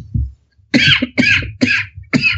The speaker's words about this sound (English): Keeping your coughing in.